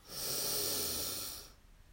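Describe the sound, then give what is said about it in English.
A deep breath drawn in during a guided breathing exercise: one long, loud, airy rush that lasts a bit over a second, then fades into near silence. “We begin by taking three deep breaths. We breathe in and out with a loud sigh. Breathe in”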